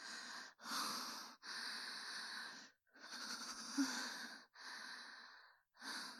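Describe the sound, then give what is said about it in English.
Deep breathing, a series of loud, airy breaths in and out with a slightly wheezy, rasping edge and brief gaps between them. “Okay, I can do this. Breathe.”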